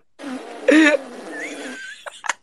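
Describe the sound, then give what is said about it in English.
A drawn-out buzzy fart sound with a louder, rougher burst near its start, trailing off into a few short squeaky blips at the end. “It's not art, it's farts. Farts, farts. Farts, farts,”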